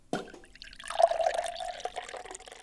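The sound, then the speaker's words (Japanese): Soy sauce, vinegar and sugar being mixed together: a brief, fairly quiet liquid splash followed by a couple of seconds of gurgling, pouring-like sound. “では作り始めましょう。醤油と酢と砂糖を混ぜてください。”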